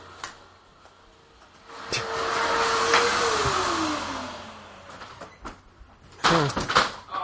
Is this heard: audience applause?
no